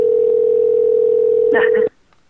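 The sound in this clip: A telephone line tone sounds during a late-night call to a restaurant: one steady, unbroken tone holds for nearly two seconds, with a brief burst of extra noise just before it cuts off abruptly.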